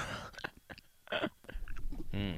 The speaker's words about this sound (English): You're a candy cane connoisseur. No plastic wrapping can stop me from enjoying my hard candy